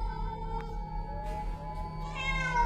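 Stray cats calling at night, with drawn-out, wavering meows and yowls that swell toward the end over a constant low background rumble.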